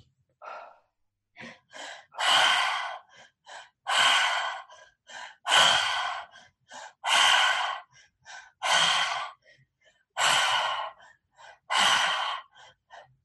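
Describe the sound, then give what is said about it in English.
Forceful breathwork breathing with deep inhales and powerful exhales. Around seven strong, airy gusts come in a steady rhythm, with shorter breaths between them, and no voice over them. “Belly, chest, mouth. Really suck in the air. Really powerful exhale.”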